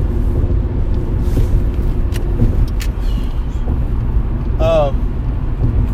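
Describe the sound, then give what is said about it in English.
Car interior noise while driving: a loud, steady low rumble of road and engine throughout, with a brief squeaky chirp near the end. “remember, I am driving”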